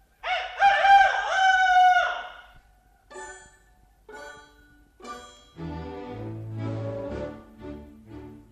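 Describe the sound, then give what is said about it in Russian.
A rooster crows in one long, loud, strained call, followed by a few shorter separate calls and then a lower, steadier sustained sound. “уже кричит петух”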